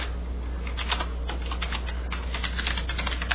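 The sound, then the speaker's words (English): Quick, irregular keystrokes tap on a computer keyboard as an email address is typed into an edit field. The light clicks patter quietly over a steady low hum. “I'm going to type in my email address.”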